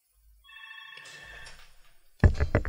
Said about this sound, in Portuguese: Ah, o telefone tocando, é uma bosta mesmo.